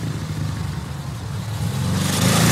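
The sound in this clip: A motorcycle engine revs with a rough, rattling mechanical roar that swells louder toward the end, heard alone with no voices.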